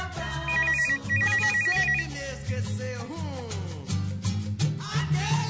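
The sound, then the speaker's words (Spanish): A warbling electronic telephone ringtone plays in two quick runs of beeps, quiet within a dense, continuous mix of other sound. “¿No hay un sonido telefónico? ¿No hay un ringtone? Ahí está.”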